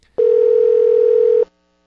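A telephone dial tone on a prank call: a single loud, steady electronic tone holding one pitch for just over a second, then cutting off into silence.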